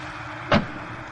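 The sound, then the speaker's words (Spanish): A taxi pulls up and a passenger climbs in, in a 1981 film noir: one short, loud burst stands out over a steady low car rumble. “Un taxista detiene su vehículo junto a él y el detective se monta.”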